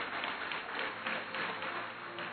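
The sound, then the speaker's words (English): A church audience claps and applauds during a service: a dense, steady patter of many hands, moderately loud and sustained without pause. “Give the Lord a mighty clap of it.”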